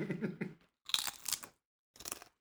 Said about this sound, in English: Right, and we just have a quick bite and then we will get straight on with the deep stuff.